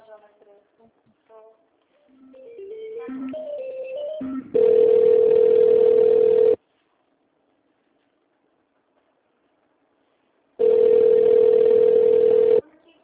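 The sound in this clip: Ringback tone of an outgoing phone call to a company's HR department: two long, steady electronic tones, each about two seconds, separated by a silent gap, with brief talk before the first.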